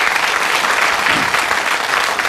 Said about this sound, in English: A round of applause, please.